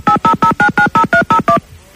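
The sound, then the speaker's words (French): A touch-tone telephone number is dialed for a call: eight short, evenly spaced beeps, each with a different two-note pitch, in a quick steady rhythm, followed by quiet. “Attention, on y va, on appelle encore sans m'en parler.”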